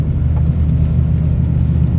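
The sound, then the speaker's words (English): Steady low rumble of a car driving along side roads, even and continuous with no talking. “For example, as I drive on these side roads,”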